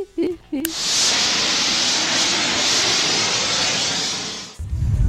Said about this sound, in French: Bah, c'est un four à gaz, mais le piezo foutu le camp. Bon, je vais l'allumer avec le chalumeau et ça sera bon.